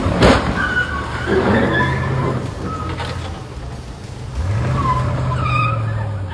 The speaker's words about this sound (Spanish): choca otra camioneta y luego va y arremete contra un Porsche